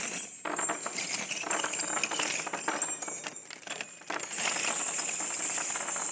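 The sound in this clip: Metallic jingling from a heavy bag holding over 100 old church keys: a continuous bright clinking rattle that dips briefly near the end before swelling again, with no voices.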